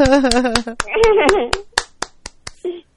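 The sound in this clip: Hand clapping offered as thanks: a steady run of sharp, crisp claps at a brisk, even pace across the whole clip, with voices talking over the first half and a short vocal sound near the end.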